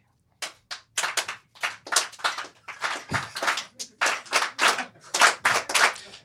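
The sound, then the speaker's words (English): A live game-show audience at a Brooklyn festival claps in quick, steady rhythm: about twenty sharp, bright hand claps in evenly spaced bursts, fairly loud, with no talk over them. “Uh-oh. 3 claps for this game.”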